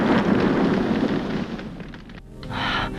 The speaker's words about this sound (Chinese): 可没等车完全掉进去，就在半空中爆炸了。